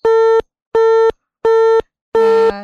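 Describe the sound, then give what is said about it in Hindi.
A telephone busy tone sounds after a call is cut off: four even, loud beeps at one steady pitch, separated by regular silences, with another sound briefly overlapping the last beep. “शायद उन्होंने phone cut दिता है ते कोई गल नहीं।”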